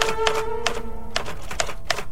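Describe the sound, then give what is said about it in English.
Typewriter keys clack as a will is typed, with a few sharp, separate strikes spaced irregularly across a steady, loud background. “I'm writing your will, Dickie, on your typewriter.”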